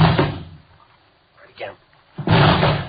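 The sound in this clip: Police officers force a locked door open, a heavy sustained crash erupting near the end after a quiet stretch, with voices heard before it.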